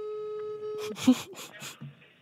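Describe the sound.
Telephone line tone plays during a call transfer to customer service: a steady, single-pitched hum holds for just under a second, then cuts off and a voice begins speaking.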